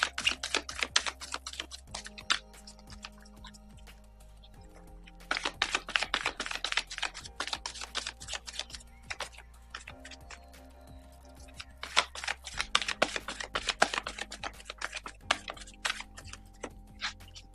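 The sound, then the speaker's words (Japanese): Tarot cards are shuffled by hand, giving rapid, crisp flicking and tapping in three long bouts separated by brief pauses, with no voices. “それでは、カードをシャッフルします。”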